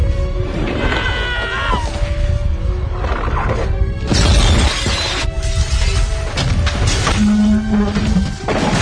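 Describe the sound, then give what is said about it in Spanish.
Furniture crashing and glass shattering as it slides down the steeply tilted stern deck of a sinking ship: a dense, continuous din of smashing and clattering, with shrill wailing cries rising over it. “La gente resbala por la cubierta de popa debido a la gran inclinación. Los muebles bajan disparados.”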